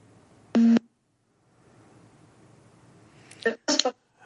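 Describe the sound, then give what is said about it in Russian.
A telephone line cuts off with a single short, loud busy-tone beep, followed by faint hiss and a couple of brief voice fragments. “Не, что-то прекратилась связь.”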